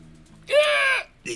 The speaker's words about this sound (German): Ich besuchte den Mann mit dem fußballbegeisterten Papagei.